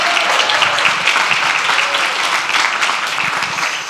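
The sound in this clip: Audience applause at a live retail-industry panel event in Boston, welcoming the panelists onstage: dense, steady clapping of many hands that holds at an even loudness for about four seconds.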